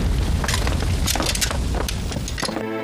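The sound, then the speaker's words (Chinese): A house room on fire gives a loud, dense, continuous roar with sharp cracks and snaps scattered throughout. “快救火！ 快救火！ 快点！ 快打水！ 夫人房间着火了！”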